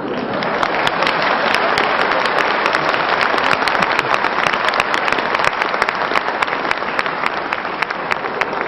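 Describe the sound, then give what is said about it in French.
Audience applause fills the whole stretch, a dense, even roar of many hands clapping at steady loudness with no break. “non mais il n'y a pas de quoi applaudir”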